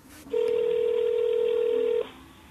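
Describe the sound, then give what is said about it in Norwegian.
A single steady telephone tone sounds while a call is placed to a relative. It is one even, mid-pitched tone that holds for about a second and a half, then stops, with quiet background on either side. “Vi prøver å ringe ham.”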